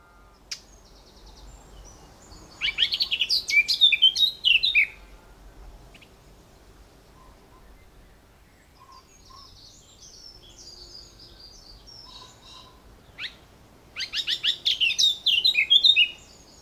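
Bird song with fast, rapid, chaotic notes, two high, bright bursts of quick chirrups and trills separated by a long quiet gap.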